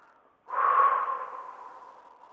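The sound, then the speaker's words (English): One deep breath taken during a guided relaxation exercise: a soft, airy rush that starts abruptly, peaks briefly and then slowly fades, heard alone without talk. “I invite everyone to take a deep breath in and out.”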